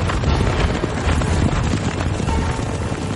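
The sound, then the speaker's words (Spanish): Hoofbeats and a heavy rumble from a chariot race with black horses in a Roman circus, from the 2016 Ben-Hur film. The dense, loud roar runs unbroken throughout. “Mesala corre en el circo con cuadriga de caballos negros.”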